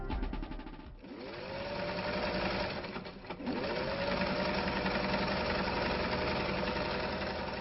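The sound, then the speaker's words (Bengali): A sewing machine runs in a study room after fabric has been cut with scissors. It makes a steady mechanical whirr with two short pauses early on, then runs on without stopping. “কাপড় কেটে পাশে রেখে machine চালাচ্ছে জহুরা।”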